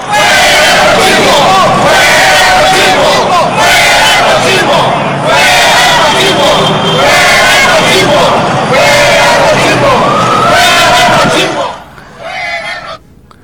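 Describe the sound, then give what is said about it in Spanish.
A crowd chants at a protest demonstration, shouting slogans loudly in repeated rhythmic phrases for about eleven seconds before dropping to a quieter stretch at the end. “Escuchemos parte de la manifestación.”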